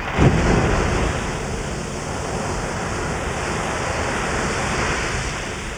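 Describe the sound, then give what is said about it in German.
Rushing, roaring water from the Strokkur geyser in an Icelandic geothermal field as it erupts a hot fountain up to 20 metres high. A steady, broad hiss and roar runs unbroken after a slightly stronger start, with no voices. “Der kleinen Springquelle kann man wahrlich keine Launenhaftigkeit vorwerfen. Alle 5 Minuten schleudert sie eine heiße Wasserfontäne bis zu 20 Meter in die Luft.”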